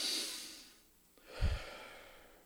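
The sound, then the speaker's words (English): A couple of slow, soft breaths, an airy hiss of air followed after a short pause by a second breath with a low puff against the microphone, faint and unaccompanied by talk. “So you want to just take a couple of breaths.”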